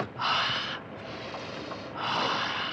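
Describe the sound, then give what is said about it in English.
Deep breaths: two loud, noisy rushes of air, each under a second long, are separated by a quieter steady hiss. No talk is heard. “Breathe deeply. Perhaps a breath of fresh air will clear our minds.”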